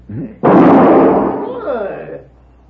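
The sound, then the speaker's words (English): A single gunshot in a Western drama shoots a gun out of a man's hand: a brief voice, then a sharp, loud blast with a long ringing decay. “You just shot the gun from my hand.”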